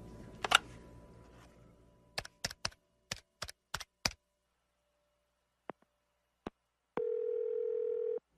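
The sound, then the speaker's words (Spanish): A steady, loud telephone dial tone sounds after a hotel handset is picked up. It is preceded by a faint noisy rustle and a rapid series of sharp clicks, then two isolated clicks. “Toma el teléfono”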